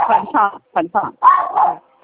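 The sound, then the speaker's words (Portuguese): A dog barks and yelps in a rapid series of about six short, harmonic bursts. The barks are loud and close together, with brief gaps between them. “O cachorro não tá bravo, tadinho.”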